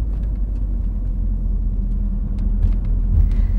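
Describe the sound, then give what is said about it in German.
A car driving through a city centre in rush-hour traffic gives a steady, fairly loud low engine and road rumble that barely changes. A few faint higher clicks and taps come near the end. “Wir müssen direkt durchs Zentrum fahren. Und auch noch mitten im Berufsverkehr.”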